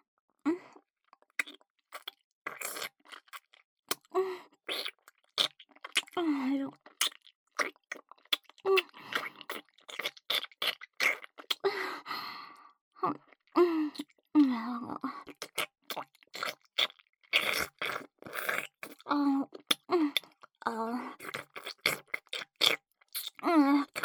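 Chewing and biting as someone eats, with many small, soft, wet crunches and clicks in an irregular stream, broken by faint murmuring vocal sounds.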